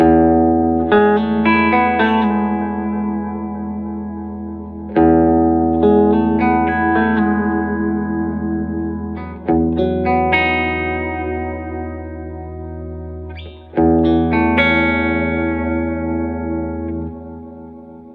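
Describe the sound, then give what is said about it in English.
Electric guitar played through a Boss delay pedal set to a 300 ms delay with intensity at maximum, giving four loud struck chords that each ring on with long repeats and slowly fade, alone without voices. “300 millisecond delay time and the intensity all the way up and show you one of the ways that I like to use this pedal.”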